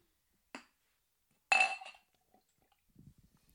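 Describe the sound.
A drink is cracked open for a toast: one short clink, then a burst of fizzy hiss as it opens, trailing off into a few faint small clicks and taps.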